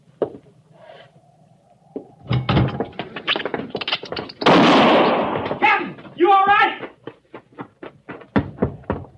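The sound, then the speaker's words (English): A gunshot fired to kill a rat: one loud, sharp blast midway through, set among scattered knocks and thumps, with a voice speaking just after the shot. “I shot it. Oh, well, sure sounded like old times for a minute there, sir.”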